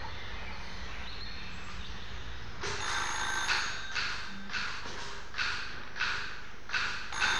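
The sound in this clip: A telephone bell rings in a steady run of short, repeated bursts that begin a few seconds in, after a stretch of quiet background hiss, and carry on to the end.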